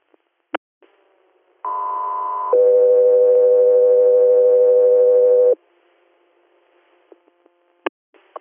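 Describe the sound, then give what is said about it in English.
Two-tone radio dispatch alert for an air medical helicopter crew: a loud, steady higher tone for about a second, then a longer, lower steady tone of about three seconds. Brief clicks come before and after the tones. “standby for tones”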